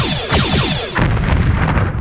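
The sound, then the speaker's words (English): Sci-fi disruptor fire comes over a comms channel as Klingons fire on infected people. A run of descending zapping sweeps fills the first second, then a loud, crackling, noisy burst of blasts follows. “There is a doctor down there who volunteers to collect a sample. On the comms, you hear the sound of disruptor fire.”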